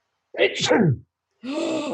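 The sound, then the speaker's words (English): A man's voice imitates a sneeze, acting out someone pulling down a face mask to sneeze. It is a short vocal burst with a sharp catch, followed after a brief pause by a second, breathier, noisier burst. “he fucking didn't want to sneeze in the mask, so he pulls it down and sneezes.”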